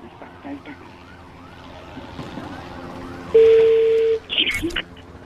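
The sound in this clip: Phone-dialing tones sound as a call is placed: a loud sustained beep, then a few short tone bursts. Earlier, faint background voices and a wavering siren-like tone can be heard.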